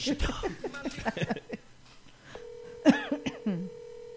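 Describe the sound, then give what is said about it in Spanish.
Telephone ringing tone on a call: a steady, low, beep-like tone holding for over a second after a stretch of voices, with talking over part of it. “¿Ahí timbró? Está timbrando.”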